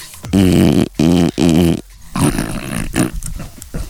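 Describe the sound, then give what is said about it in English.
A French bulldog growls and grunts. A few loud, drawn-out throaty grunts with a strong tone come first, then a run of rougher, snorting growls that rise and fall. “Dave's a French bulldog, by the way. It's not one of us making, or one of our friends with a funny speech problem going on.”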